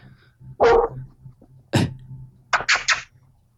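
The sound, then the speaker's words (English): A dog barks at someone walking past the yard: one sharp bark, another after a pause, then a quick burst of three. A low hum sits steadily under the barks. “Sorry about the dog. Somebody's walking by the yard and he doesn't appreciate it.”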